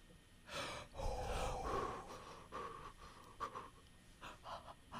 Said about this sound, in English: You guys, deep breaths. It's okay.